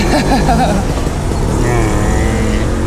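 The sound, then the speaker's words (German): A very old motorcycle drives past with a loud, continuous engine roar that stays steady throughout and shifts slightly in tone toward the end. “Ganz altes Motorrad hier gerade vorbeigefahren.”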